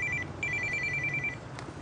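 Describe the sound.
Telephone ringing with a high electronic trill: a short burst of rapid pulses, then a longer run, over a steady low background hum.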